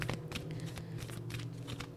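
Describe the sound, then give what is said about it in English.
Oracle cards are shuffled and flipped out of the deck, producing faint, rapid papery riffling and flicking bursts that repeat throughout. “All right, so three cards flipped over. We'll take them. So we had two cards come out together, and then we had three cards come out together.”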